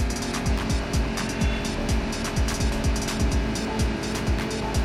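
Car engine in a racing video game, slowing for a tight turn, with many quick falling revs that repeat steadily at an even, loud level.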